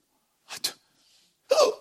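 A person hiccups, producing a couple of short, abrupt vocal gulps with sharp onsets, separated by near silence.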